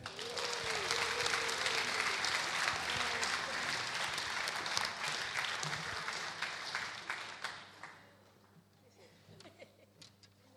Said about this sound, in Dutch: Dus, hartelijk applaus.